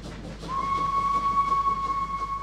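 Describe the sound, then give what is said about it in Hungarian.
A passenger train from Budapest Déli arriving at Velence station sounds a sustained, steady high whistle. It starts after about half a second and holds level over faint background noise. “Figyelem, figyelem. Személyvonat érkezik Budapest déli pályaudvarról a velencei állomásra. A vágány mellett kérjük, vigyázzanak.”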